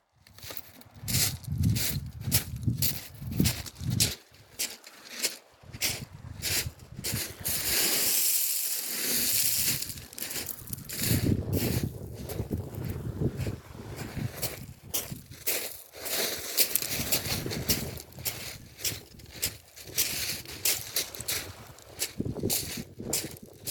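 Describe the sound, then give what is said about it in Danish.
Footsteps walking on tiny pebbles slightly bigger than gravel along an outdoor path, many steady crunching steps in a regular rhythm with a brief pause partway through, heard alone. “så er det sådan bittesmå perlestens, lidt større end grus. Og det giver sådan nogle fantastiske lydforskelle. Du gik jo faktisk turen i går, og du havde optageren med, så lad os lige lytte, hvordan det lyder.”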